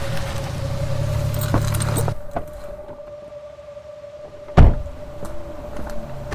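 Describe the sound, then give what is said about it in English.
A car pulls onto the gravel driveway of a Tudor-style inn: a rumbling, crunching run for about two seconds, then a quiet steady hum, then a single sharp thump near the end. “Josh pulls onto the gravel driveway of a Tudor looking in.”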